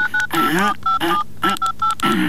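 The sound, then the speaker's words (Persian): Telephone keypad dialing: several short, clear touch-tone beeps in an irregular rhythm, with voices speaking in between the tones. “زنگ بزن دیگه، زنگ بزن. اینه زنگ میزنم، صبر کن.”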